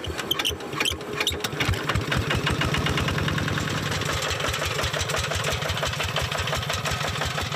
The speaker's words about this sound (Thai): จังหวัดอุบลราชธานีเร่งไถปรับสภาพที่ดินก่อนปักดำต้นกล้าข้าวนาปีในพื้นที่ไร่นาสวน